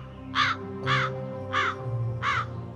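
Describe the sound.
A magpie calls as it flies over a field, giving four harsh, rasping caws at an even spacing, loud and clear over a low background hum.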